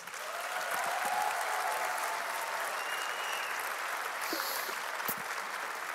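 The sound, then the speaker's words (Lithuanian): Audience applause welcoming performers at a late-night music and talk event held in a train station, a steady dense wash of clapping that holds at an even level for about six seconds with no voices over it. “Pasitikime plojimais.”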